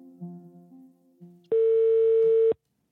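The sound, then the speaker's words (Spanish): Ringback tone of an outgoing telephone call: one steady, loud electronic tone lasting about a second, after a quieter stretch of low humming tones. “Llamé a Roberto Rojas para saber su perspectiva sobre todo esto, pero no quiso hablar.”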